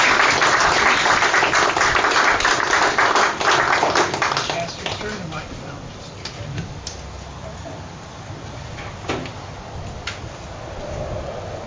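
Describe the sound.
A church audience applauds to welcome a woman to the pulpit. Dense, loud clapping lasts about four seconds, then thins into scattered claps and a quieter stretch of low shuffling noise.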